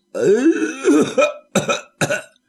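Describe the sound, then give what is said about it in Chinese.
A storyteller vocally imitates coughing: a drawn-out rasping throat-clearing sound, then two short, separate coughs, loud and alone. “就听院里响起脚步声音，有人还咳嗽两声”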